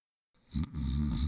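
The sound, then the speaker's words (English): A man dozes at his office desk after lunch, snoring gently. After silence, a low, rumbling snore swells and holds as one drawn-out, throaty breath. “The sound you're hearing is the gentle snoring of the President of the United States.”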